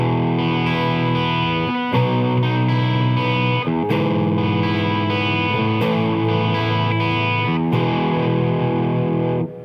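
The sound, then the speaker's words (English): Distorted electric guitar playing bar chords in the key of E along the sixth string, with the open first and second strings ringing between them. Sustained, effect-laden strums change chord about every two seconds, loud and steady, with no voices. “Here's another example where I'm going to play some chords in the key of E using mainly bar chords that move along the sixth string. But I'm going to play the first and second strings open in between.”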